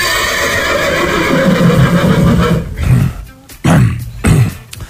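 A horse whinnies loudly in one long, shaking call, then gives a few short, snorting bursts.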